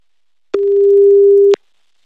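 A single steady telephone ringback tone from a call that goes unanswered sounds once for about a second, even-pitched and fairly loud, with no voices.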